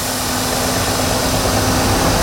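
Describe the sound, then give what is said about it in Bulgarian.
Municipal water trucks drive through hot town streets in Yambol to cool them. A loud, steady engine drone with a broad rushing hiss runs unbroken throughout, and no voices are heard. “За спасение от жегата общината пусна камиони с вода, охлаждат улиците и се диша по-леко.”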